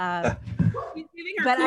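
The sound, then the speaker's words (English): A dog gives brief high yelping barks and whimpers, mixed in with a person talking. “there goes my dog with something going on”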